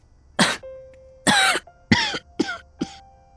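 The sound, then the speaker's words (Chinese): A woman in a wheelchair coughs five times in uneven bursts, some short and sharp and others drawn out and throaty, with quiet gaps between them and no talk. “她压低了声音又咳了两声。”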